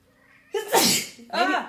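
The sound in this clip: A woman sneezes once, loudly and abruptly: a sharp breathy burst followed by a short voiced tail.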